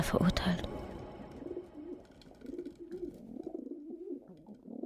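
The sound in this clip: Pigeons cooing at a main railway station, with low, warbling coos that rise and fall steadily after a brief louder burst at the start.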